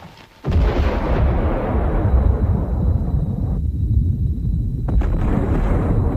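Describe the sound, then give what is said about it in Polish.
A massive detonation of the largest Soviet aerial bomb, a 50-megaton hydrogen bomb set off in 1961, arrives as a sudden, heavy roar that stays loud and dense as a continuous rumbling blast for several seconds. “Największa bomba lotnicza, którą w 1961 roku zdetonowali Rosjanie.”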